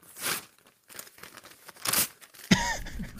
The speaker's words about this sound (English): I don't know if you can hear that, but that is the sound of Dan freaking Campbell and Brad Always Open for Business Holmes ripping up your mock draft, ripping up my mock draft